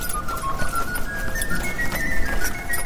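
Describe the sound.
Horse hooves clip-clop through a horse-drawn carriage ride, a steady, busy clatter of hoofbeats that keeps an even loudness from start to finish.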